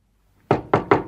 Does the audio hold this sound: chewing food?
no